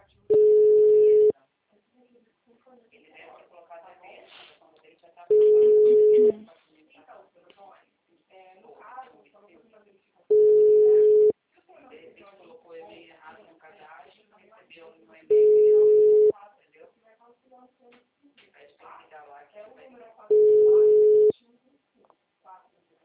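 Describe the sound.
A telephone rings with five loud, steady tone bursts, each about a second long, spaced evenly about five seconds apart, with a person talking in the gaps.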